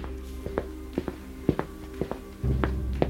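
Soft footsteps creep quietly into a terraced house through a front door left ajar. Several light, faint steps fall at an uneven pace, and a low steady hum joins near the end.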